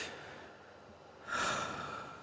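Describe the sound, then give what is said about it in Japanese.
A person takes a slow deep breath to calm down: a soft airy inhale, then a louder, fuller breathy exhale that fades gradually, with no talking. “ちょっと落ち着きましょうね。深呼吸しますね。”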